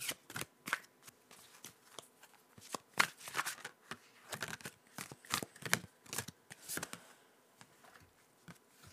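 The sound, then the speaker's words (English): Crisp, papery flicks and slaps as a Wanderer's Tarot deck is shuffled and a card is pulled. Many quick card sounds come in an irregular rhythm, fairly soft and with no talking. “So I'm just going to go ahead and pull us a card, and that's it.”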